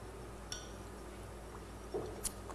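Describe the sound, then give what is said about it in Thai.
A drink being stirred before it is poured into a milk pitcher, heard as a few faint metallic clinks over a quiet, steady background hum. “อันนี้นะครับเราก็ทำการคนให้เรียบร้อยนะครับแล้วเราก็เทใส่พิกเชอร์เพื่อรอการใส่ช็อตแล้วก็สตรีมนั่นเองนะครับ”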